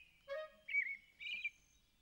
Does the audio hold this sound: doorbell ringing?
no